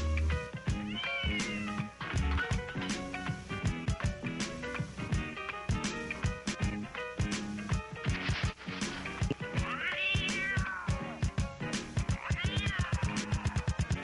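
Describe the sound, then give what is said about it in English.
Cat meows sound inside a song, with a few wavering, rising-and-falling meow calls over a steady, punchy rhythmic beat. “The fuck is cats? Cats in the middle of that song.”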